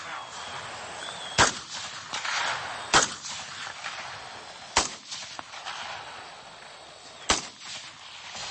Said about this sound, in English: Don't hit it. Yeah, just shoot around it. Go ahead and open up.